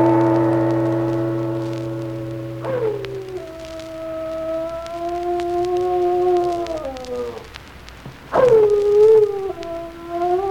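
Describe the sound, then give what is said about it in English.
A dog howls in long, loud, wavering cries. Two drawn-out howls slide and waver in pitch, and the second starts with a sharp, stronger onset. “Oh, it's Peck's dog howling.”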